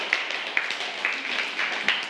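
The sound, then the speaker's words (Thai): Students applauding a student group in a classroom: a fairly quiet, steady patter of clapping, with a few sharper claps standing out now and then. “ปรบมือให้กับกลุ่มที่2ด้วยค่ะ”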